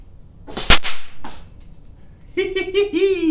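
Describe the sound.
A blowgun dart strikes a wall with one sharp, loud crack, then a much fainter tap, and after a pause a voice begins talking.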